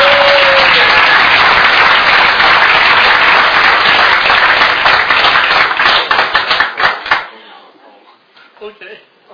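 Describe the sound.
Loud audience applause welcoming the evening's main speaker at a meeting, dense and sustained for several seconds before thinning into scattered individual claps that fade out.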